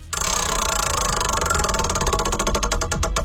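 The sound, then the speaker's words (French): A prize wheel spins with a loud, rapid rattle of clicks. The clicks grow more widely spaced as the wheel slows near the end. “On va tourner la roue, ça, on le fait tous les jours.”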